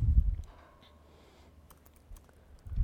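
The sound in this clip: Computer keyboard keys clicking as code is typed for a Reduce function, with a few sparse, faint clicks and soft low thumps at the start and end.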